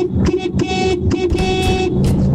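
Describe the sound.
Car horn honking in a sent voice note: a few loud, brassy toots of uneven length in quick succession, some short and one longer blast, with a rough low rumble underneath.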